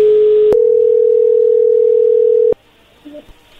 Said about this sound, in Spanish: A ver, y entra ahí la llamada.